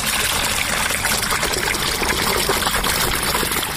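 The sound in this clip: Irrigation water flows from a channel into barley fields, a continuous, even rush and trickle of water with no breaks.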